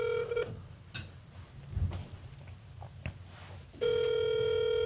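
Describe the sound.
Telephone call ringing on speakerphone: two steady, buzzy ringback tones, the first brief at the start and the second long at the end, separated by a stretch of low background noise.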